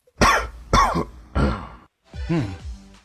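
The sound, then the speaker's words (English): Four sharp, loud coughs in an evenly paced series, each a harsh burst with a brief gap between them. The last cough is rougher and longer than the first three. “A cough? Yes, that's right. Sometimes they're so obvious people don't guess them”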